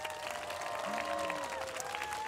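A studio audience applauds two world-class dancers as they come onto a show. The clapping is soft and steady, an even wash throughout with no talk over it.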